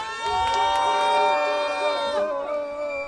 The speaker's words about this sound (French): Hey, est-ce qu'on pourrait faire un peu de bruit pour Ney Perche?